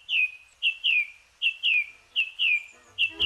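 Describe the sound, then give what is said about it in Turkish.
Birdsong at dawn in woodland: bright, high chirps that slide downward, repeated about nine times in quick, slightly uneven succession with no other sound around them. “Şafak vakti kuşları dinlemek için çevrenizdeki ormanlık alana gidin.”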